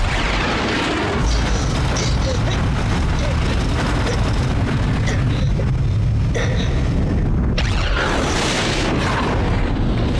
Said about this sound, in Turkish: Vakit yok. Bombayı bırakıyorum. Kahretsin, vuramadım.